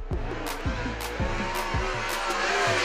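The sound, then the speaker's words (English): Race cars on an auto racing track roar past in rapid succession, each engine whine swooping down in pitch as it goes by, over a continuous loud engine drone. “The smell of burnt high-octane fuel as a car rounds the track?”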